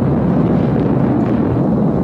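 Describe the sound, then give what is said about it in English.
Deep roaring rumble of a Europa rocket blowing up in a massive fireball after its Blue Streak first stage struck the fuel tank of the French second stage; dense, loud and steady throughout, with no separate bangs. “The Blue Streak first stage slammed into the fuel tank of the French second stage, and the rocket went up in a massive fireball.”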